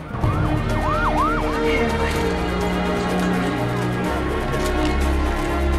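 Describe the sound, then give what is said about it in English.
Police and emergency vehicle sirens wail around a plane on the tarmac, a few rising and falling sweeps early on, over a steady low engine rumble that continues throughout. “As Flynn and Troy leave the cockpit, more police and emergency vehicles throng around the plane.”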